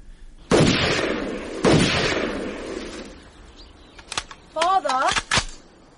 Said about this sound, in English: Father, what are you doing? Fishing. You're shooting fish.